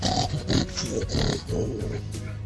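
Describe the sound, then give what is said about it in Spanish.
Someone snorting over a video call, a series of short, rough, pig-like nasal snorts and grunts in quick succession, slightly distorted by the call line. “Hay alguien resoplando por el chat, por el Skype.”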